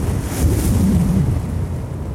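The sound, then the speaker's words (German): A strong gust of wind sweeps across a meadow, a loud, steady, low rushing roar that swells slightly in the middle and carries on without voices. “fegt eine starke Böe über die Wiese.”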